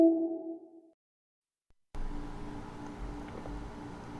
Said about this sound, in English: Your call has been forwarded to voicemail. The person you're trying to reach is not available. At the tone...